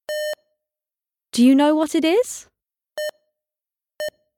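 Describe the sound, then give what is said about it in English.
Checkout scanner at a supermarket till beeping as a cashier scans items: three short, pure electronic beeps, one before a person speaks and two after. “It's the sound of the cashier scanning the shop at the till.”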